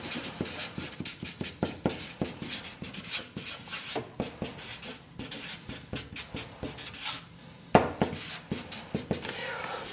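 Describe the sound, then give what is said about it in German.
Handwriting, a pen scratching as something is written down: many quick, dry strokes in an uneven, continuous rhythm, with one brief pause near the end. “Ich schreibe das mal hier so hin.”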